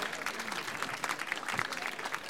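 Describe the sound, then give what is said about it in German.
An audience applauds to congratulate the newly crowned Türkele queen of 2026: dense, fairly faint clapping from many hands, a steady crackling patter with no clear pauses. “Mal kleinen Applaus und Gratulation zu diesem wunderbaren Amt.”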